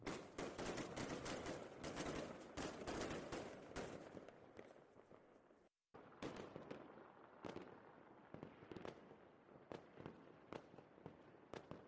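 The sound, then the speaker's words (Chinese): Fireworks go off in a dense string of sharp pops and crackles, many overlapping bursts, then a brief silence before sparser, separate bangs continue. “别走啊，你不是喜欢烟花吗？”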